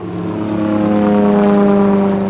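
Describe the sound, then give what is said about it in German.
An airplane climbing over the Colombian jungle: a steady, layered engine drone that swells slightly in loudness while holding an even pitch throughout. “Wenn das Flugzeug über die zitternden Dschungelwände steigt, öffnet sich der Blick hunderte Kilometer weit über Kolumbien, Brasilien, Peru.”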